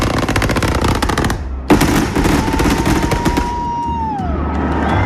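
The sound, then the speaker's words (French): A fireworks display fired line by line from an electronic firing console crackles in dense, rapid bursts like machine-gun fire, pauses briefly, then resumes, with a whistling tone gliding downward near the end. “Émilie sélectionne la ligne 1 et appuie sur les deux boutons fire de sa table de tir. Ainsi de suite, jusqu'à 42, le nombre de lignes du feu de ce soir, soit jusqu'au bouquet final.”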